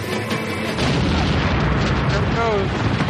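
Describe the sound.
Gas leak explosion, a sudden loud boom that swells into a sustained roaring rumble, with a voice briefly heard over it.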